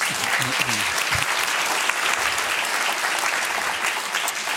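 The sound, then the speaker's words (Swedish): An audience applauds in a steady, thick patter of many hands, holding an even, moderately loud level for several seconds without a break or talk. “Men en applåd ändå.”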